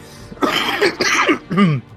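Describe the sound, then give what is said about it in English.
Three loud, rasping coughs in quick succession from a person with a nasty cough, heard alone. “get rid of this nasty cough.”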